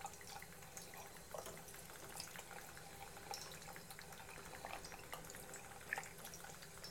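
Steady running tap water splashes into a bowl as hands rest in it, a continuous even wash of noise with no talking.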